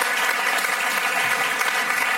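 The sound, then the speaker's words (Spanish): Audience applause in honor of the Teatro del Barrio's National Theatre Prize, a loud, dense and even roar of many clapping hands sustained without break. “Vamos a darle un aplauso a Teatro del Barrio.”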